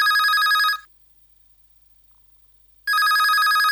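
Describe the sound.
Telephone ringing with an incoming call: two loud bursts of bright, trilling electronic ring separated by about two seconds of silence.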